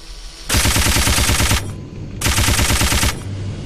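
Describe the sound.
Rapid machine-gun fire in a video game aimed at moving ships, heard as two loud bursts of fast, evenly spaced shots separated by a short pause, the first burst slightly longer than the second.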